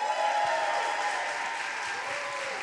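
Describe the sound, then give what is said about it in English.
Brief, faint applause from a live audience greeting a guest coming on stage, a steady, even patter of clapping. “Please make some noise for Mr. David Rudolph. Give it up.”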